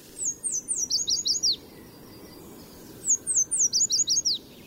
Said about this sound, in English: In spring and summer, yellow warblers sing from treetops in city parks and stream sides from Mexico to Canada.